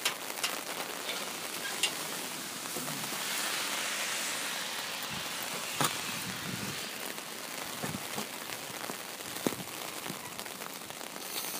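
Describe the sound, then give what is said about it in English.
Steady rain falls on a typical Vancouver day, a faint, even hiss scattered with small ticks of drops. “And it is a typical Vancouver day. Rain coming down.”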